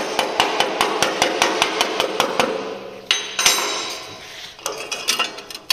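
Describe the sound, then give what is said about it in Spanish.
A hammer chips slag off an electrode weld bead, with rapid, evenly spaced metallic taps, a short pause, then another brief burst of clinking strikes. “Vamos a quitar la escoria y vemos lo que hemos hecho.”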